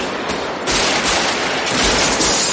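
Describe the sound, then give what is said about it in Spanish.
Automatic gunfire in a police shootout from the 1995 film Heat, a loud, dense barrage of rapid shots that runs continuously with no clear pauses. “Neil corre. Vincent se asoma y dispara.”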